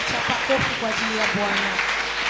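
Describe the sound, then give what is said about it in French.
A church audience at a New Year service applauds and cheers, with a steady wash of clapping and voiced shouts and exclamations rising over it. “Tu peux acclamer pour le Seigneur.”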